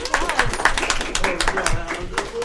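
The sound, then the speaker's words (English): Audience clapping at a live geek convention show at TitanCon, a brisk run of many sharp claps with a voice talking over them. “Applause, please.”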